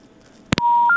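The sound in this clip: Telephone line tone as a call is cut off: two sharp clicks, then a steady electronic tone that steps up to a higher pitch and holds, loud and alone.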